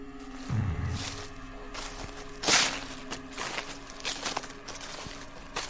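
Shuffling footsteps drag along the ground outside, a few soft scraping steps spaced irregularly over a low steady background hum.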